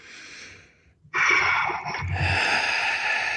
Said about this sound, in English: So take a deep breath in